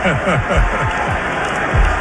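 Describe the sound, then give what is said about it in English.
Arena crowd at a Knicks basketball game cheering and applauding: a continuous dense wash of crowd noise running under a speaking voice. “Crowd cheering everything that he does.”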